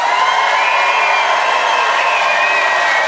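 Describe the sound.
Audience cheering at a live show as the crowd votes for the winner, a dense, sustained roar of many voices with shouts and whoops running steadily throughout.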